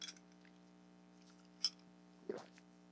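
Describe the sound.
Coffee being sipped during a break: two short, faint slurping mouth sounds, the second a little longer, over a steady low hum.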